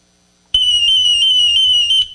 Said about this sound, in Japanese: 実際これを持った時にここにアラームという形のボタンがあります。ちょっと押します、